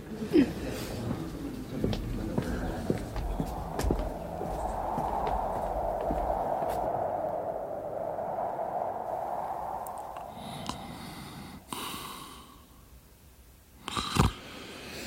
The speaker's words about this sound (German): Mein Gott, Sie schnarchen ja.